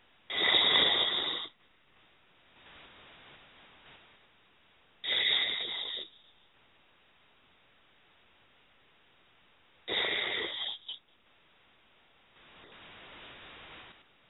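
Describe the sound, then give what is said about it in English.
Three slow deep breaths taken during a guided healing session, each a loud, airy inhale followed by a softer, longer exhale, with quiet pauses between them. “And three nice deep breaths.”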